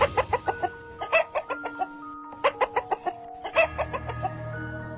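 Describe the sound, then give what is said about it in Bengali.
A chicken clucks in bursts of many short, throaty notes with a ringing tonal edge, pausing briefly between runs, alone without voices. “কোত্থেকে একটা cock cock cock শব্দ আসছে।”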